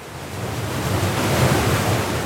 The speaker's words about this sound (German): Der schnelle Lauf der Pegnitz, der seit über 600 Jahren bis heute unermüdlich durch das Holzwasserrad der Reichel-Schleifmühle rauscht.